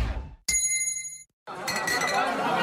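A gong chime marks a drink break: one bright metallic strike rings as a clear sustained tone for under a second, then cuts off abruptly. A burst of dense, noisy sound follows after a short silence.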